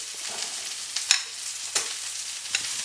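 Stirring a pea salad with feta, onions and mint, with three sharp clinks against a steady background sizzle of frying meat.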